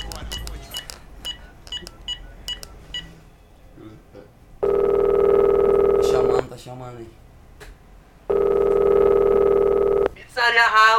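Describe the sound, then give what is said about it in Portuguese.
Telephone line tone while a call is placed to order a food delivery: two long, steady, loud buzzing tones separated by a pause, with a voice briefly heard between them after earlier talk. “Calma aí, tô ligando aqui.”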